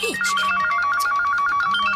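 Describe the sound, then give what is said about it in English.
A phone ringtone sounds for an incoming call from an unknown caller: a steady electronic tone pulsing in rapid, evenly repeating beeps that stay loud and unchanging throughout, with no voices. “Unknown caller. Don't answer. Don't pick up.”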